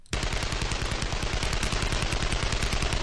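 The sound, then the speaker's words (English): An AK-47 Kalashnikov rifle fires on automatic, a loud, unbroken stream of rapid shots with an even rhythm that lasts the whole three seconds. “Say hello to the AK-47, the Kalashnikov.”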